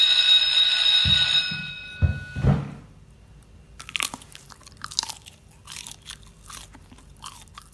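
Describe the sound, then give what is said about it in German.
Crunchy chips being chewed: a brief tonal jingle with a few hits opens, then many crisp, irregular crunches and bites follow on their own. “Weißt du, und ihr erzählt, dass ich komisch kaue? Lecker! Das ist ein bisschen matschig.”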